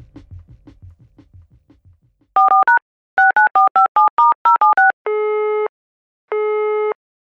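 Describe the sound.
Telephone tones while a call is placed: a quick run of short two-tone keypad beeps, about a dozen in total, followed by two long, steady ringing tones separated by a brief gap.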